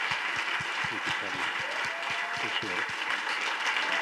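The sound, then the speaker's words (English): Church audience applauding a visiting pastor with a standing ovation: dense, continuous clapping that holds steady throughout, with voices murmuring underneath. “Praise the Lord. Thank you. Well, thank you. I don't get a standing ovation from week to week”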